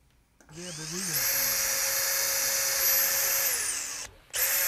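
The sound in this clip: A cordless power screwdriver drives a screw through an old-wood decking board into the facade of a waste-management administration building in Kempten. It spins up to a loud, steady high whine, winds down with falling pitch, stops briefly, then starts again.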